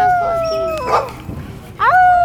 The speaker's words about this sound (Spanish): se despertó con unos perros aullando